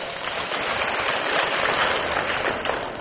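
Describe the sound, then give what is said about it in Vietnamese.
Applause at a Buddhist dharma talk: a dense, steady wash of clapping that holds at an even loudness for the whole three seconds, with no voices over it. “Rồi, một tràng pháo tay.”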